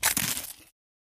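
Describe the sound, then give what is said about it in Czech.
Crisp crunching of a gluten-free puffed corn snack, a quick run of dry, crackly bites that fades out after well under a second and leaves silence. “Poex křupky. Tak, křupavé.”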